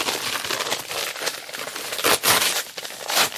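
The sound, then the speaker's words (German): Paper envelopes are being opened with crisp crinkling and rustling that runs throughout. Several louder bursts of tearing and crumpling stand out near the end. “Wollen wir unsere Umschläge zusammen aufmachen?”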